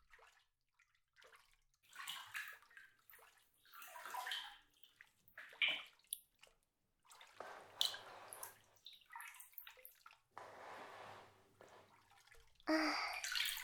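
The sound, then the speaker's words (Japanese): Hot bath water moves in soft, faint splashes and sloshes that come in irregular bursts, separated by near-silent pauses. “体はお湯の中に入っちゃっていいからね。”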